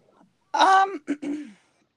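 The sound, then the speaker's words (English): Someone clears their throat: a rough voiced rasp followed by two brief gruff bursts, moderately loud and alone. “Sorry for the throat clear there.”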